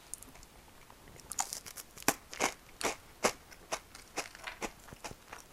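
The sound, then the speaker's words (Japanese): Crisp crunching of a Home Pie puff pastry snack being bitten and chewed: a quick, irregular run of many sharp, dry crackles, some louder than others, with no talking. “ちょっと今ホームパイ食べてるこのパイ美味しいよね藤屋のこれ大好きなんですよ”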